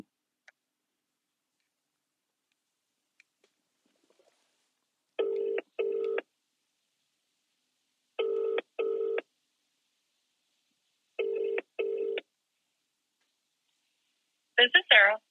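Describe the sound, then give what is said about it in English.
An outgoing phone call rings out in three evenly spaced double rings with a short gap inside each pair and long quiet pauses between them, followed by a brief burst of a different sound at the end. “I'm dialing. 9272. I just said the last four digits of their number.”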